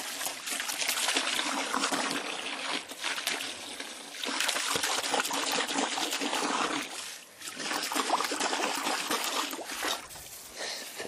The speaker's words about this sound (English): We don't have one of these waste disposals. This is a hose.